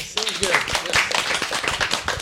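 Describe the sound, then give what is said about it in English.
Hand clapping at the end of a game, a few sharp claps under people talking over them. “I'm going to clap.”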